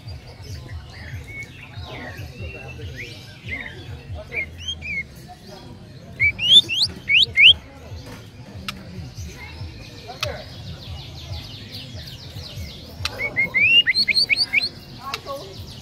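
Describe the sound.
A canary sings during a songbird session. High, thin chirps and quick trills come in scattered bursts over a low background rumble, growing denser toward the end.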